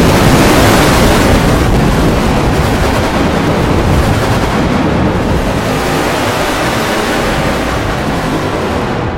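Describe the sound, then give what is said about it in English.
A loud, continuous rumbling roar of bombs striking London in a World War III attack, forming a steady wash of noise across the whole span with no separate blasts standing out. “And in a flash, it was all over for FkingDead. The bombs were indeed aimed straight at London. In fact, one was aimed directly at the co-op just down the road from him. He was one of the fortunate ones where they went out quickly in the initial blast,”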